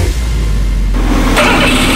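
Engine revving from a Toyota Corolla car that has run poorly since new spark plugs were fitted: a loud, steady mechanical roar that thickens and brightens partway through, with no voices.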